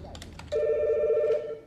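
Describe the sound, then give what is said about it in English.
A telephone rings with an incoming call, a single steady electronic ring lasting almost a second and preceded by a few soft clicks. “Hold on a second, I got another phone call.”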